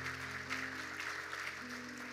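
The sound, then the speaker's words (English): Church audience clapping their hands in praise, a steady, fairly quiet patter of many hands over sustained low keyboard tones, with one held note shifting partway through. “Let's give the Lord a great big hand clap.”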